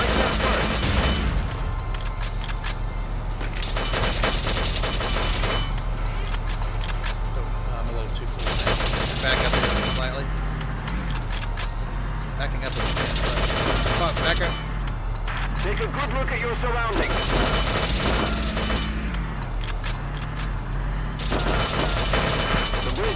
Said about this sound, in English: Alright, let's start with the tank. Let's roll the tank right in here.